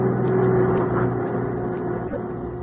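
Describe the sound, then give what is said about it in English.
Steady engine rumble from a large van driving off a lot, a continuous low drone that holds at an even loudness throughout, with no voices. “Now, why would they be driving that big van off the lot?”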